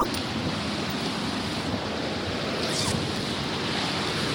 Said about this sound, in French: Là, il y a une grande cascade à gauche.